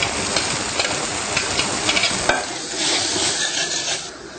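Sizzling of half-cooked peas frying in light soy oil, a steady bright hiss with a few soft stirring scrapes and one sharper click partway through, with no voices.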